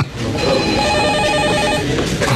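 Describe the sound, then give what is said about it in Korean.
Telephone ringing: a rapid warbling electronic trill sounds steadily for over a second, then stops, with constant background hiss throughout. “영선 씨가 일을 하고 있는데 전화가 왔죠.”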